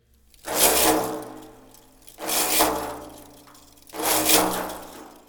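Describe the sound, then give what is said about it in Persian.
Brushing strokes on the skin of a daf frame drum, held upright, like sweeping: three swelling, hissy rustles, each rising and fading over about a second and a half, in an even rhythm. “دف را عمود نگر داشته و با سرعت یک آن به روبه بالا و کشیدن به روبه پایین روی پوست ضربه وارد می کنیم یا خشخش کنان صدای حالت جارو زدن را ایجاد می کنیم روی دف به این صورت.”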